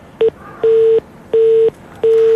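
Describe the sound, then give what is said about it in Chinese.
A telephone busy signal sounds while a call is being dialed: one short beep, then three loud, steady, mid-pitched tones of equal length, evenly spaced with quiet gaps between them and no voices. “我们此刻正在拨打，这是忙音的状态吧？”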